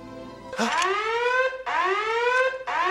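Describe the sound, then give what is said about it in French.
An alarm goes off, a comic personal 'virginity alarm' programmed to sound: loud, repeated whooping tones that each sweep upward in pitch, in sustained cycles with brief gaps between them. “Mais qu'est-ce que c'était que ce bruit? C'était mon alarme virginale. Elle est programmée pour se déclencher avant vous.”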